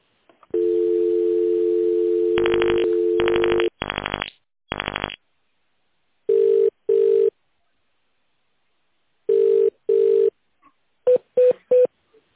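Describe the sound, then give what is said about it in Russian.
Touch-tone dialing of a telephone extension number: a steady dial tone gives way to a few sharp keypad tone bursts, then pauses and further pairs and a quick trio of short beeps. “Для соединения с абонентом, пожалуйста, наберите добавочный номер в тональном режиме.”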